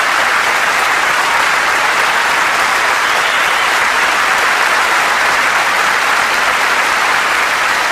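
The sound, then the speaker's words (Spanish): Audience applause fills the whole stretch with dense, steady, loud clapping at an even level, with no voices over it. “Aplausos, aplausos.”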